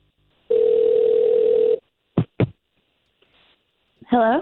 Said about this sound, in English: We'll try to call her first and see if we can't get the both of you talking.